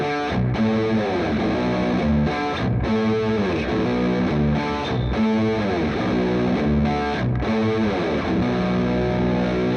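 Distorted electric guitar plays a song's second riff, a pre-chorus figure that closely echoes an earlier chorus-like riff. It loops a dense, chugging chordal pattern with short breaks roughly every two seconds.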